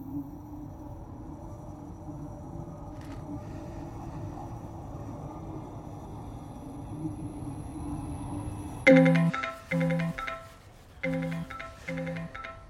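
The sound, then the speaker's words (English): Phone ringing: tonal electronic ringtone bursts in a repeating on-off pattern that cut in abruptly after a long stretch of steady low rumble. “Startled by the phone, he sees Carrie's name on the display.”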